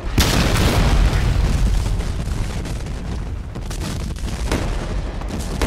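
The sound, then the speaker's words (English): Heavy artillery bombardment of a Civil War fort at Fort Sumter, a dense, continuous, loud rumbling roar with a few sharper blasts standing out. “For 34 hours, the fort endured relentless bombardment.”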